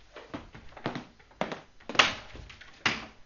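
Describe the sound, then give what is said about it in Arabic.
Knocking on a house door: a handful of dull, hollow thuds spaced irregularly, each sharp at first and then quickly fading, with no voices over them. “كيف واتتك الجرأة على المجيء لتدق باب دارنا؟”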